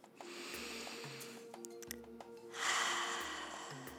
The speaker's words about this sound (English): Now, put your hands on your belly and take a deep breath.